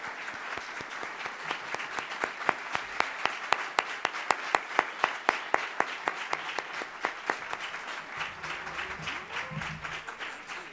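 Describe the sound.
Audience applause greets a speaker at the City Club of Cleveland. Scattered clapping settles into a steady rhythmic beat of sharp, distinct claps, then thins out toward the end. The applause is fairly soft overall.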